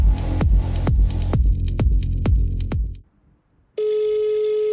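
Telephone sounds for an incoming call: a quick run of loud, evenly spaced ringing strikes, then a short silence and a steady, unbroken tone that holds to the end.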